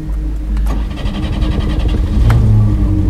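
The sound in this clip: Engine of a red Renault Frégate car parked at the curb, running and revving with a loud, steady low rumble that swells slightly louder toward the end.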